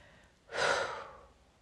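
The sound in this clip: A single deep breath: one soft, airy inhale swells and then fades away, heard alone.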